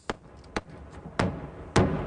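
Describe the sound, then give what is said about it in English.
Heavy artillery fire in the city of Tobolsk, Ukraine, as residents prepare to evacuate: four dull booming thuds, two sharper and fainter ones followed by two louder blasts, each with a lingering rumbling decay. “that's the sound of heavy artillery fire in the city of Tobolsk as residents move about getting ready to evacuate by bus.”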